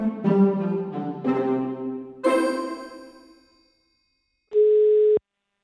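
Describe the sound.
Telephone tones while calling a shop: three struck, chime-like tones, each ringing out and decaying, then a pause and a single steady electronic ring tone that cuts off abruptly.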